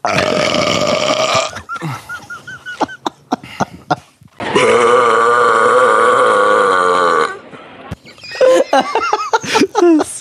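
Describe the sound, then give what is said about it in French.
Two long, loud burps, the second lasting several seconds, with bursts of laughter between and after them. “Moi, je vous encourage à roter le plus que vous pouvez.”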